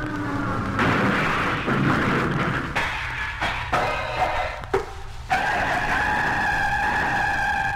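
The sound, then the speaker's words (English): A small airplane's failing motor makes a forced crash landing through fog: a dense, rough roar broken by abrupt cuts and sudden bursts, loud throughout with no voices. “Uh-oh, my motor's conking out. I gotta make a forced landing. There's a clear spot in the fog. I'll head down through that.”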